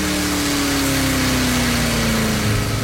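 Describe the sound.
A car's engine as the car pulls up near a ruined lot: a loud, steady rumbling drone whose tone slowly falls, with no talk over it.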